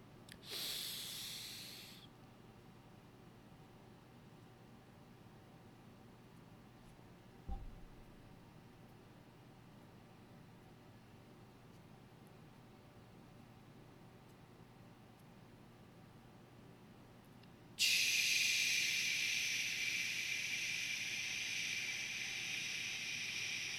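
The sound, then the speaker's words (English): A slow, deep breathing exercise: a short breath at the start, a long quiet hold, then a long, strong hissing exhale that runs for several seconds to the end. “So inhale for four times four would be 16, you hold, and then 8 seconds exhale, right? So check this out.”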